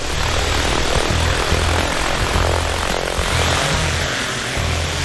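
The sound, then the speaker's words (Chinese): Whirring, droning engine of a toy airplane taking off, a steady, loud, buzzing roar like a small propeller aircraft that holds without pause for about five seconds, with no voices. “玩具飞机有办法了，起飞。”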